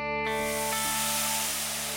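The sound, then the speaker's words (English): Food sizzles on a barbecue grill fired up in the backyard: a loud, steady hiss starts after a brief moment and carries on without a break, with a faint constant hum underneath. “Today, we're following our nose to the backyard where we fired up the barbecue grill.”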